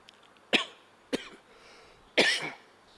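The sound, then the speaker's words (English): Someone coughs three times in sharp, separate bursts with quiet gaps between them; the third cough is longer and rougher than the first two. “since I'm trying to speak of intelligence, the Lord wants me to shut up and makes me cough.”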